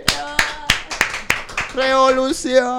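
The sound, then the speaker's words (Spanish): A few sharp, evenly spaced handclaps snap out one after another, after which loud, sustained voices take over. “¡Aplauso, che!”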